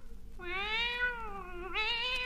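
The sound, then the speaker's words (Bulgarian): A cat meows in one long, loud, drawn-out call that climbs in pitch, then shifts higher near its end, with no talk or other sound around it. “Мяу! Маци, защо ми лукаш? Мяу! Смееш ми се, а?”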